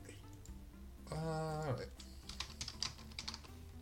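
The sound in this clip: Computer keyboard typing is faint and quiet. A brief tonal sound comes early, then rapid, irregular key clicks cluster through the second half.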